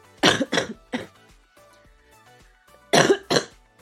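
Coughing from a cold that has not yet cleared: three harsh, breathy coughs in quick succession, a pause, then two more, loud against an otherwise quiet background.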